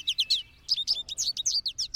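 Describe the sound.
An American goldfinch calls from a sunflower head: many rapid, high, thin chirps in two bursts separated by a short pause.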